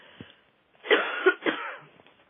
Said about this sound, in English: I'm about to cough here, so excuse me a minute.